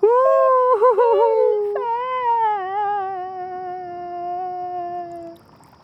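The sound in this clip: Voices imitating ghosts wailing and moaning inside a glass jar: high tonal cries quiver and waver, then settle into long sliding moans that slowly fade out.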